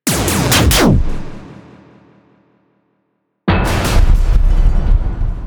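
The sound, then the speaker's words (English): Sci-fi weapons fire and fighter craft explode as a sound effect. A rapid cluster of loud blasts rolls into a long fading rumble and then silence, before another sharp, heavy blast erupts with dense roaring noise. “another quick series of aiming adjustments, more weapons fired, and the remaining fighters are destroyed.”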